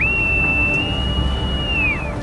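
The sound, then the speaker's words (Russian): A boatswain's pipe sounds on a warship's bridge, one long shrill whistle that swoops up sharply, holds a steady high note for nearly two seconds, then drops away at the end over a low rumbling background. “Свистай. Боцман подносит губам морскую дудку.”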